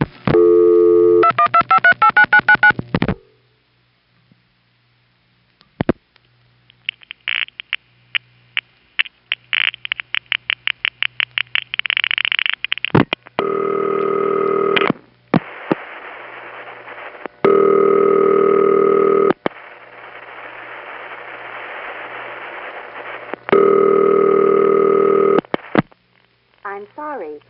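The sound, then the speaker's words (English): A telephone call to the Bronx being dialed: a brief opening tone, then a long run of rapid dial clicks, followed by loud steady line tones in several long bursts separated by short gaps. “Here's a call to the Bronx, which ends in a voice that you would least expect to hear there.”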